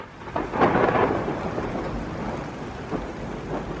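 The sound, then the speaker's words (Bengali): Thunder rumbles low and heavy over steady rain for a radio-drama afternoon downpour that sets in after a cloudy day. The thunder swells early, then the rain continues as a dense hiss with scattered drops. “কিন্তু দুপুর থেকে মেঘলা করে চারটে নাগাদ দেড়ে বৃষ্টি নামল। আকাশের চেহারা দেখে মনে হলো বৃষ্টি সহজে থামবে না।”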